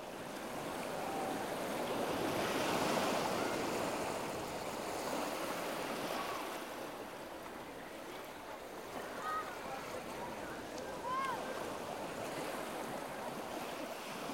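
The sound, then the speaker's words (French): Waves wash onto the seashore in a continuous broad, rushing surge that swells a little early on and then settles into a steady, even wash. “Aujourd'hui, dernier épisode, on est au bord de la mer.”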